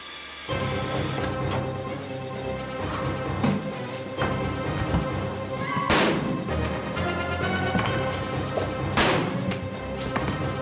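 Pistol gunshots in a film scene ring out as a few sharp, loud bangs over a continuous dramatic musical score. The shots are spaced irregularly, with two standing out clearly.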